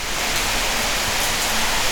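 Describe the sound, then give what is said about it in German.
Steady rain, a dense, even hiss of falling water without distinct drops, continuing alone at constant loudness throughout. “so kriegt ihr mal wirklich mit, wie es hier regnet”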